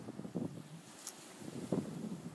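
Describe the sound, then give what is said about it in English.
Faint wind buffets and rumbles low and steady, with a few soft gusts swelling briefly. “I was greeted by Patrick Wren, the wind is delicious and playful, so you will definitely be hearing her quite often”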